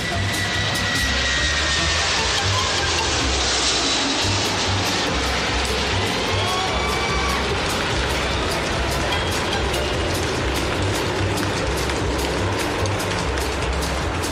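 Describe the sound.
Airplane engines running as the aircraft prepares to depart, a loud, continuous roar with a steady low hum and broad hissing wash that hold unbroken throughout.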